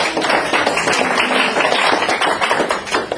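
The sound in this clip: A church audience clapping in praise to the Lord, with dense, continuous applause from many hands that stays loud and steady throughout.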